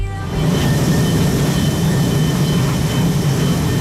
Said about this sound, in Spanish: Vamos a coger un avión, lo primero.